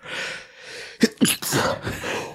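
A sneeze: two sharp, voiced bursts in quick succession, then a longer breathy tail, with no talk around it.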